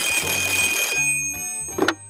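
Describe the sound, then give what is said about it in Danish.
A studio telephone rings with an incoming call. A loud, bright bell rings for about a second, then steady tones linger and fade, ending with a short sharp knock. “foran den store og berømte vidighedstelefon, der er klar til at tage imod opkald fra vidige hoveder fra nær og fjern. Og der er allerede kø på linjen”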